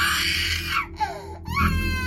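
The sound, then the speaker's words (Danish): A 1½-year-old child screams and cries from a bed in an upstairs bedroom, heard through a baby monitor: loud, high wailing in a few bursts broken by short gaps. “Og så lyder der bare et skrig fra babyalarmen.”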